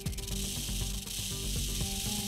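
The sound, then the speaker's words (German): Warning rattle of a Western diamondback (Texas) rattlesnake: a dense, steady buzzing hiss that holds at an even loudness for about two seconds, with no voices. “haben Forschende der Ludwig-Maximilians-Universität München das Rasseln der Texas-Klapperschlange untersucht. Nimmt die Schlange eine potenzielle Bedrohung wahr, erzeugt sie ein Rasseln, dessen Frequenz sich mit zunehmender Annäherung der Bedrohung auf 40 Hertz steigert.”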